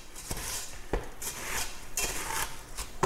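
Sticky crisped rice cereal treat mixture is scraped and pressed into a pan lined with baking paper, giving several scattered clattering knocks and scrapes of utensil against pan at a moderate level, with no talk.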